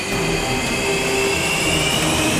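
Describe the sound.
An armed military jet taxiing to the runway gives a loud, steady roar with a high whine on top, holding an even level for the whole stretch without voices.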